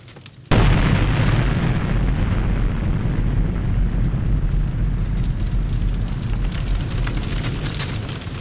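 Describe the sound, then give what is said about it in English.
A German bunker explodes with a sudden loud blast that turns into a long, sustained, roaring rumble lasting several seconds and easing only slightly toward the end. “And with that, the German bunker explodes as General Waverly”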